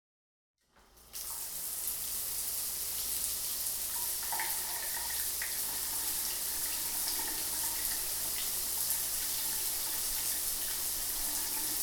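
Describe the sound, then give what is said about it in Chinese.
Water running from a shower: a faint, even, broad hiss that starts after a moment of silence and flows on steadily without change, with no voices. “那哥哥，你先去洗澡吧。”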